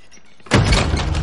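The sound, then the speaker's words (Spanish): A door opening in a horror film scene: after a quiet start, a sudden loud burst of broad noise begins abruptly and holds steady to the end. “La puerta se abre y el pomo se mueve.”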